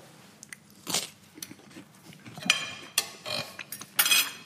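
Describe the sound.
Biting and chewing crunchy bread: a few sharp, dry crunches in an irregular rhythm, standing out over a faint low background.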